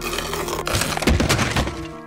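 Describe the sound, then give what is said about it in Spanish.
Window glass being struck and broken: a few heavy thuds and a breaking crash in quick succession over a steady tonal background. “Voy a tratar de entrar. Trataré de romper la ventana.”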